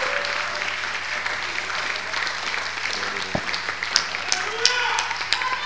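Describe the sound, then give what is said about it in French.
A church audience claps together for the Lord, steady broad applause that turns punchier toward the end with several sharp claps standing out, and a voice heard over it. “Acclamons le Seigneur ensemble. Let's clap the Lord together.”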